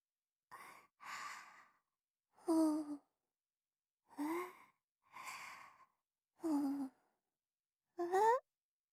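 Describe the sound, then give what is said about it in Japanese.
Seven short, breathy puffs of air, like someone blowing on hot food to cool it. They are partly voiced, some with a slight upward lilt, and come in an uneven series separated by brief pauses. “じゃあ、私がふうふうってしてあげるから、食べよ。”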